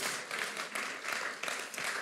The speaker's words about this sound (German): Super, lasst uns dem Worship-Team einen Applaus geben, dass ihr euch auch so führen habt lassen.